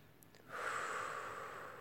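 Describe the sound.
A person blows out a long breath during a relaxation exercise. The airy, steady hiss starts after a quiet moment and holds faintly for over a second.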